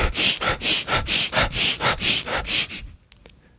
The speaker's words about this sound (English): wake up in the morning, you want to inhale rapidly. You inhale rapidly for 30 seconds and it sounds like